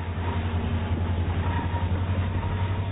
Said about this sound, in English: climb aboard an EMD SD-60 freight heading east over the mighty Sierra Nevada.